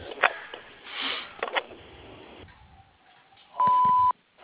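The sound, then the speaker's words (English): A single steady electronic beep from an electrical contractor's answering machine sounds for about half a second near the end. It follows faint rustling, a sniff and clicks. “Please leave a detailed message after the sound of the tone.”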